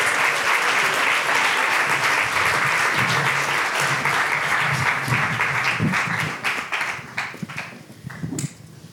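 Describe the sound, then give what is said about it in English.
An audience applauds to welcome the Sexism Project team onto the stage, loud, dense clapping that holds steady before thinning out and tapering in the last few seconds. “So I'm going to bring them out. They can come on out. So let's give them a hand.”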